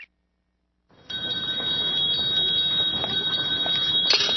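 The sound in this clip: A handbell rings for the Salvation Army Red Kettle Christmas collection. After a brief silence it jangles brightly in a steady, rapid shake that continues to the end.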